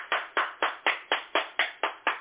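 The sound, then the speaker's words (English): Hand claps honour an award recipient: nine sharp, evenly spaced claps in a steady rhythm, each crisp and clear, with nothing else heard around them. “And let's all give him a round of applause.”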